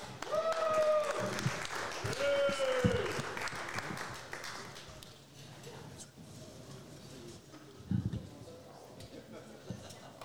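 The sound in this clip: Audience applause at a comedy show welcoming the next comic to the stage: steady clapping throughout, with a voice over it in the first few seconds, then fading slightly toward the end.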